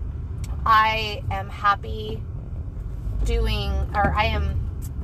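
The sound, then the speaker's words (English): Low, steady road rumble from a car being driven runs continuously beneath a person talking throughout, a dull engine and tire drone with no distinct events. “Of course, I'm driving right now”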